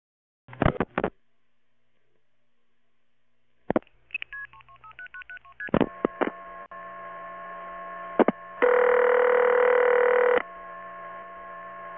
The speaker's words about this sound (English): Please dial 1088 to join the conversation.